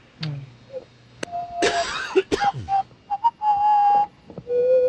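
A person whistles a film theme tune, a few short clear tonal phrases that step between pitches, broken up by noisy throat or cough-like bursts.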